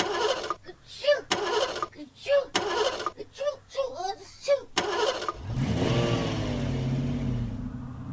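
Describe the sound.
A car engine revs as it races around in circles, its whining tone swinging up and down for a few seconds after a stretch of spoken narration, then easing toward a stop.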